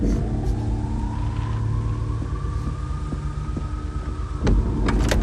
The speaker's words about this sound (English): The Porsche slowly reverses.